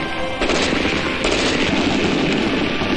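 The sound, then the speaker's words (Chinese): Rapid gunfire from a Type 56 submachine gun, Type 56 semi-automatic rifle and Type 56 light machine gun rings out in a military live-fire demonstration. Dense, overlapping automatic bursts form a loud, continuous crackling barrage. “解放军以班排为单位，使用56式冲锋枪、56式半自动步枪和56式轻机枪的组合进行了射击表演。”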